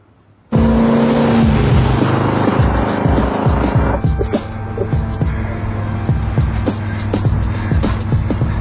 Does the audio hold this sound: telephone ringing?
no